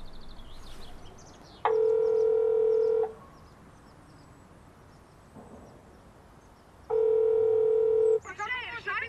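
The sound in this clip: A phone call rings out with two long, even ringback tones, each just over a second, separated by a pause of about four seconds, with brief voices at the start and end.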